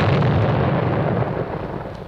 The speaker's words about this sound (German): Und dann kam die Explosion, und als sich der Qualm verzogen, zeigte sich, oh welch ein Hohn, keine Schraube war verbogen.